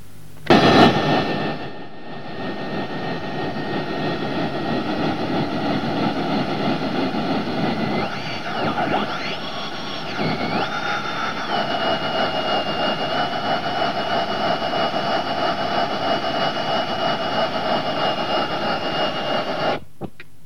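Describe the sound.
A radio signal from a satellite spinning at about 182 RPM comes through as a steady hissing drone with constant pitched tones. Partway through, a brief dip brings wavering tones, then the signal stops abruptly.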